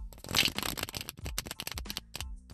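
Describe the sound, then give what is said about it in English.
A deck of cards being shuffled: a dense riffling burst followed by many quick, crisp flutters and snaps. The sound is fairly faint and plays on its own. “All right, so I'm about to split the deck, and we're going to pull three cards for every sign, okay?”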